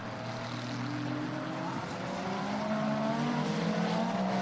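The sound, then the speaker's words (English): Hypercar race cars in a world endurance championship race cross the start-finish line, producing a dense, steady roar of overlapping engine tones that stays loud throughout with no talk. “Oh, huge crowd of cars going across the start-finish line with 3.5 to go.”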